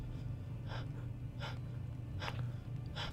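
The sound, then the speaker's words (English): A voice imitates the rapid breathing of zombies during a tabletop role-play game: four sharp, breathy gasps at a fairly regular pace over a steady low hum. “Suddenly, instead, replaced by a sharp succession of rapid breathing. A lot of them going.”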